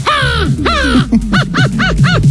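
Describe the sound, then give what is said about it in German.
A 12-year-old boy's voice imitates a crow's call: two long, harsh, falling caws, then four shorter clipped caws in quick succession, loud and raspy. “Er kann Vogelstimmen nachmachen. Die Krähe.”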